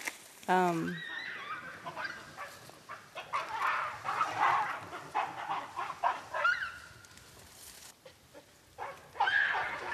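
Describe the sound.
Wild baboons in a troop fight, two individuals trading shrill, harsh screams and honking barks. The calls are loud and ragged, rise and fall in bursts, and continue almost without pause throughout.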